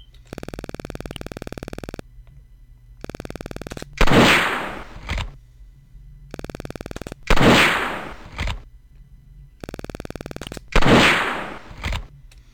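Gunshots fired at a tin can target in a video game. Three loud, sharp blasts with short decaying tails are each followed by a lighter crack, and between them come stretches of buzzy synthetic tones.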